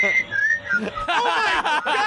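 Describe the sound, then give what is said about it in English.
Several people whistle in a played video: thin, high whistled tones waver at first, then give way to denser, overlapping whistling that stays fairly strong throughout. “Also, they're whistling.”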